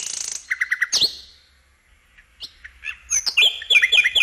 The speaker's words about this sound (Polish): Też po zmierzchu możemy usłyszeć słowiki. One wtedy gdzieś tam się jakoś przebijają przez ten szum miasta.